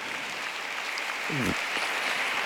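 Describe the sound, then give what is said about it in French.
Italian-speaking pilgrims applaud in a steady, dense wash of clapping that runs through the whole moment, with a brief voice rising above it midway. “J'adresse un accueil chaleureux aux pèlerins de langue italienne qui applaudissent”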